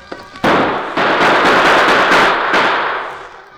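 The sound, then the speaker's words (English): Gunfire with bullets striking rocks as outlaws shoot at a rider behind a circle of boulders: a loud, dense barrage of crackling shots with a few sharp new onsets, tapering off toward the end. “Bullets struck the rocks on all sides of the Lone Ranger as he unholstered his guns.”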